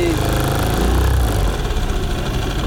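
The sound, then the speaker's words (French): An engine runs steadily with a low, droning rumble and a dense wash of noise, holding a constant level throughout. “je vais couper là le moteur.”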